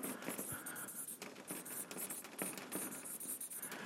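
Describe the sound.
Pen scratching on paper as someone writes a note, a soft and steady scratching that runs without pause and stays faint throughout.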